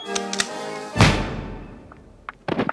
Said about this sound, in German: Auf der ziemlich dunklen Promenade ertönte plötzlich im Rücken der beiden Frauen ein Schuss.